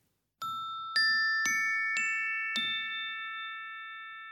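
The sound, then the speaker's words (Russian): Orchestral bells, a tuned metal percussion instrument, are struck five times in a slow, even sequence. Each bright, pure note rings on and overlaps the next, and the shimmering tones decay gradually. “ударные инструменты, оркестровые колокольчики,”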